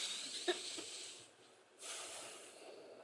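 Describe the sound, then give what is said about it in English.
A deep breath drawn during a guided breathing exercise: faint, airy hiss with a brief snort-like catch early on, then a longer, steady rush of breath. “Now, let's all take a breath. Let's take another one, because that felt good.”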